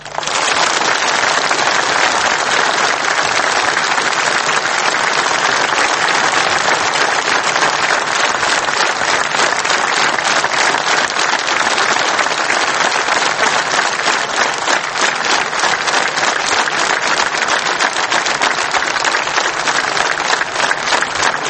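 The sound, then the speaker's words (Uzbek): An audience at a speech applauds in a long, loud, sustained stretch of dense clapping that keeps an even intensity for over twenty seconds. “Qarsaklar qani?”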